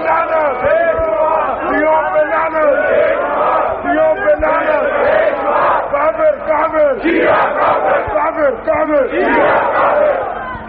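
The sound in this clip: Many voices chant a religious slogan together, loud, dense and continuous throughout.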